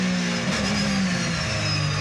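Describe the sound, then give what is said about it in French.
A 560-horsepower car engine running at high speed, around 210 km/h, gives a loud, steady drone with clear tonal harmonics that holds without a break and has no talk over it. “Je peux dire que le moteur il est plein. Les 560 chevaux, on les sent bien. Et ils sont partout, à tous les régimes.”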